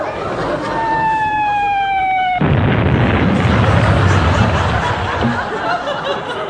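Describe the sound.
Shell fired by the Home Fleet: a high whistling tone slides downward, then a loud explosion bursts in and leaves a dense, sustained roaring rumble that slowly eases off.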